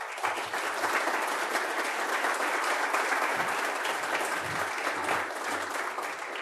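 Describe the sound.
Sustained audience applause welcoming a speaker to the lectern, dense and steady clapping at an even loudness from start to finish, with no voices standing out.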